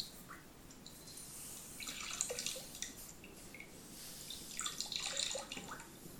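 Water splashing as arms are washed in a bath: soft, irregular trickles and splashes that come in two brief clusters, faint and without voices.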